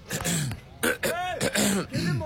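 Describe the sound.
Raspy throat clearing from someone with a sore throat: several strained, voiced bursts in quick succession, rough and effortful, with short gaps between them.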